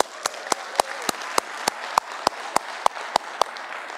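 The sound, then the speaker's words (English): Clapping from an audience at a Christmas Eve church service, welcoming worshippers at other campuses. About twelve sharp, evenly spaced claps fall in unison at a steady beat. “can we welcome them and give them a hand?”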